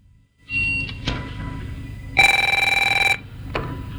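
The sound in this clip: A telephone bell rings once in a rattling burst of about a second. A few soft clicks and knocks come before and after it, over a low steady background rumble.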